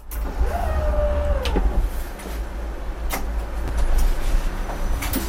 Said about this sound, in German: Die Bahn fährt los. Fast von alleine.